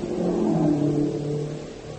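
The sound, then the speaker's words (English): Military staff cars drive past with a steady, low, humming engine drone that swells slightly and then fades. “Wait, let those cars pass.”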